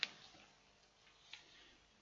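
A clock ticking faintly, with two soft, sharp ticks over a quiet hiss.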